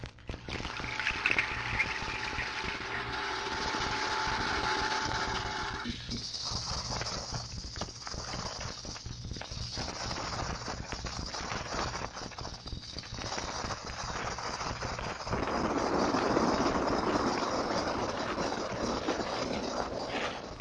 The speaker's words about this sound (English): After contact, we shifted to 6000 to obtain an accurate bearing. Then the prop count detector was switched on to intensify the prop beats. Listen again to this search and contact.